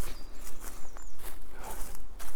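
Footsteps crossing a sunny forest clearing overgrown with moss, a series of soft, muffled treads in an uneven walking rhythm, fairly loud and with no talk.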